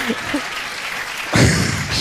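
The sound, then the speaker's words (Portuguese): Applause for a winner at an award announcement: a dense, steady wash of clapping that swells noticeably louder partway through and stays strong to the end. “Uma salva de palmas para o senhor jovem conservador da direita e o seu estagiário.”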